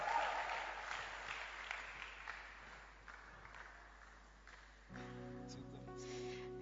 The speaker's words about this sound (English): So help me to welcome on stage our sister Grace to give us a second testimony. Put your hands together for Grace as she comes up.